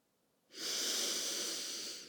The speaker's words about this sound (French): Expiration très longue. Et une troisième fois.